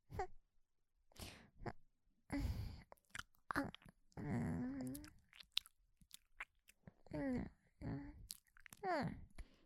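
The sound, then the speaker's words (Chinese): Chewing and eating, with soft mouth crunches and bites on food such as cream cake, mixed with short voiced murmurs in an uneven rhythm of bursts and pauses. “你是不是不吃？不吃算了，我自己吃。”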